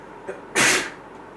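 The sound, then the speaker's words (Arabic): A single sharp sneeze during a religious lecture, preceded by a brief inhaled catch, then a loud breathy burst that cuts off abruptly. “يرحمك الله”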